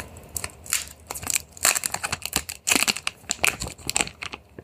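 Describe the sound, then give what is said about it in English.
Protective plastic film peeled off a new foldable phone, giving many sharp, irregular crinkles and crackles in quick bursts, loud and bright, with no talking. “Going to peel this plastic off of it.”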